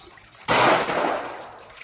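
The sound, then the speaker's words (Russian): Shotgun pellets strike lake water around a swimming drake in a sudden loud burst of splashing. A sharp onset gives way to a broad, hissing spray that slowly fades. “По озеру плывет селезень. Вода вокруг него вскипает от попадания дроби.”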